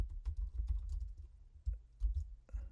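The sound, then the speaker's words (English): Fingers type on a computer keyboard, a soft, irregular run of many quick taps and clicks with brief pauses between bursts, heard alone without talk. “Let me type it down in the chat here.”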